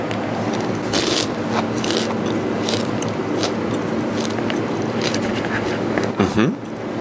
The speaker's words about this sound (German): als letzte Station ein so ein großen Käfer. Na, schauen wir mal. Der ist so gut crunchy, ne?